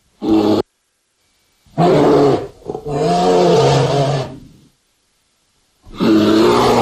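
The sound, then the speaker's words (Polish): Bear roaring in several loud, deep bursts separated by short silences. Each roar is rough and rumbling, with no voices heard. “Zaprosiłem niedźwiedzia, aby ryknął i państwu wybił takie głupie pomysły z głowy, jeśli oczywiście ktoś takie ma, a nie powinien.”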